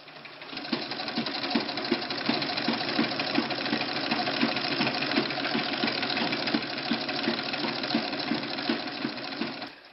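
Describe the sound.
A tailor's sewing machine about a hundred years old runs steadily, giving a fast, even mechanical clatter with a regular rhythm that continues unbroken for the whole clip. No one speaks.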